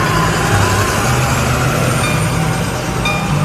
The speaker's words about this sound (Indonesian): Kerung kerung tius beus teh nuluykeun deui perjalanan harita teh.